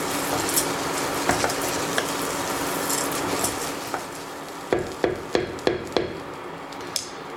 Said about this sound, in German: Reis erstmal zu den Lauchzwiebeln und den Zwiebeln, dass der sich so im Öl so ein bisschen auch anschwitzen kann.